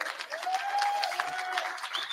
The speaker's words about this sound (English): Yes, you can feel it. Clap it if you feel it.